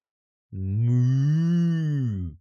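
A cow in a Minecraft story gives a single long moo, low-pitched and rich in harmonics. It is loud and steady for about two seconds, alone with no voices.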